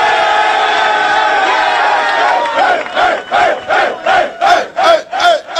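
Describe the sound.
Football players cheer loudly in a locker room for their head coach after a win. A dense roar of many male voices breaks into a rhythmic chant, the same shouted syllable repeated many times at an even beat.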